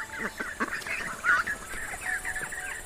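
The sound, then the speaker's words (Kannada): A flock of ducks arrives at a river in the evening, quacking in faint, overlapping calls that run on without pause. “ಆಮೇಲೆ ಆ ಬಾತುಕೋಳಿಗಳ group ಅಲ್ಲಿ ಬರುತ್ತೆ.”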